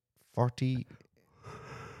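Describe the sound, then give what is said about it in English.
A person yawns during a casual chat among friends: two short voiced vocal bursts followed by a longer, softer breathy exhale. “Sorry for yawning, lads.”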